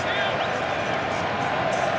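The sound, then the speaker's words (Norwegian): Stadium crowd at a football match buzzing with anticipation during a scoring chance, a dense, continuous roar of many voices held at an even level throughout with no distinct cheers standing out. “Men det forventningen da. Det forventningenes brus I publikum.”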